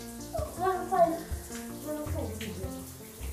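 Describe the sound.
Bath water sloshes and trickles as a child rinses a sponge in the tub, a steady wet splashing under voices talking.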